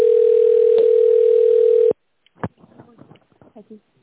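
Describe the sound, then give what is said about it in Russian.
A steady telephone tone plays while a call is being connected, holding one even pitch loudly for about two seconds before cutting off abruptly, after which only brief faint sounds follow. “We have not received a valid response. Please wait while we connect your call.”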